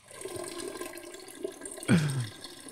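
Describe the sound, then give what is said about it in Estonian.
Real recording of urine streaming into water in a garage, a steady splashing trickle running throughout, then a short, louder gush near the end. “Peeing sound effect. Real recording.”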